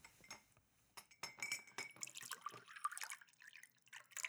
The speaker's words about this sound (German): Ich nehme gerne ein Glas Wasser, bitte.